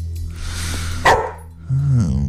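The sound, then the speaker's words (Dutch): A dog gives one sharp, loud bark that stands out over a low background hiss. “Ik word helemaal gek van het beest. Je kunt je niet omdraaien of dat ding begint dan weer te blaffen.”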